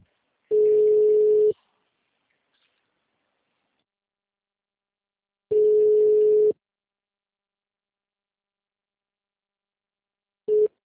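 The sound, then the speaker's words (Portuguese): Ringback tone of a phone call going unanswered: steady mid-pitched tones about a second long, separated by long silences. Two full rings sound, and a third starts just at the end. “Tá chamando e ninguém tá atendendo.”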